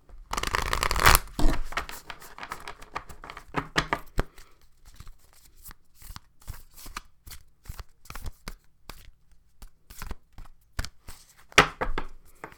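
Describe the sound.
A Moonology Oracle card deck being shuffled: a loud papery riffle of cards at the start, then many quieter scattered taps and slides of the cards, with no talk.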